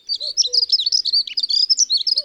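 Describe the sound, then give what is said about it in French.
April birdsong: a rapid, continuous warble of high, twittering chirps, bright and steady throughout, with a few faint lower notes near the start and end. “il est temps de réviser nos chants d'oiseaux du mois d'avril”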